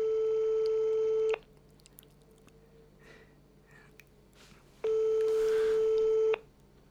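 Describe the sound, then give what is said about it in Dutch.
Ringback tone of an outgoing telephone call: two long, steady electronic tones, each lasting over a second, separated by a quiet pause of several seconds with faint background noise. “belt nu naar haar hoofdactrice.”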